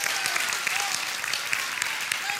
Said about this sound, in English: Come on, give the Lord a hand clap of praise, whoever that's for.